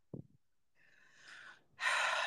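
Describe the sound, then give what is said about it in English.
A person takes a deep breath mid-conversation: a brief soft sound, then a quiet drawn-in breath, ending in a loud, breathy rush of air. “Oh, what was the deep breath?”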